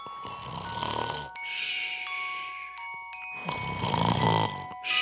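Snoring from someone dozing off while staying up late to celebrate New Year's at midnight: two long, loud, raspy snores framing a quieter stretch filled with sustained chiming, bell-like tones.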